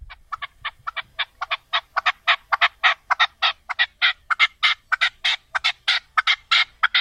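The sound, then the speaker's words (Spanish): Partridges calling from a played recording: many rapid, raspy call notes in a brisk, regular rhythm that grow somewhat louder as the series goes on, with no talk. “mira cómo cantan las A perdices, ver, a ya ver, a verás. ver, que nos has traído un Sí, audio.”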